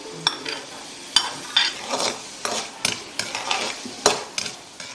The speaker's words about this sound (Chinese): 将切好的丁焯水，捞出，放入油锅中爆炒。